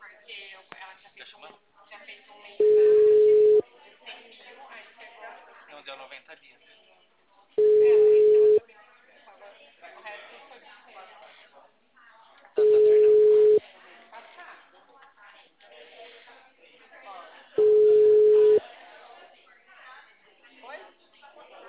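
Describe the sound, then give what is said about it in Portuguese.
Ringback tone as a telephone call is placed: four steady one-second tones at a low, even pitch, repeating about every five seconds, with people talking in the gaps. “Tá chamando.”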